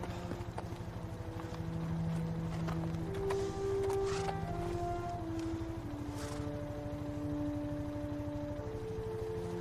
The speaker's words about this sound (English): leads his horse away from the building